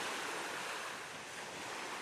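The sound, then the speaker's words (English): Ocean waves lap and wash at the water's edge in a steady, unbroken hiss of surf that stays fairly loud throughout, easing slightly in the middle before swelling again. “Place your thought shell at the water's edge and watch the waves lap against it, wash over it,”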